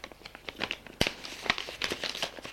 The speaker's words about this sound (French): Le médecin déchire l'ordonnance et lui dit